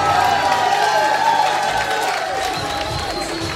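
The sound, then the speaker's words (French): A crowd gives an ovation at a performance after a sung number, with cheering, whoops and applause merging into a dense, steady roar that stays loud throughout with voices mixed in. “Et on va se prendre une ovation.”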